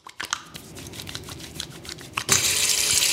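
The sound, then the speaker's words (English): A tap runs at a sink while hands are washed: a series of soft rubbing and clicking sounds comes first, then water gushes on loudly and streams steadily to the end. “Ooh, scrub, washing our hands. That's what health officials say is one fundamental way to help keep viruses from spreading in this new era of COVID-19.”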